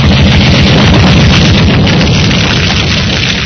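Heavy enemy gunfire in a war battle scene, enemy guns opening fire on an advance toward bunkers: a dense, continuous roar of booming blasts and bursts with a deep low rumble, loud and unbroken throughout.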